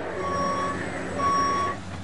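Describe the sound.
Reversing beeps from construction equipment: two long, steady, high-pitched electronic tones separated by a short gap, over a low, continuous engine rumble.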